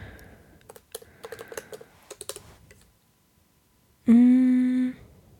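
Keystrokes on a computer keyboard while someone searches a word online: quick irregular bursts of clicky taps, then a pause and a short, steady, buzzy tone that holds briefly before cutting off.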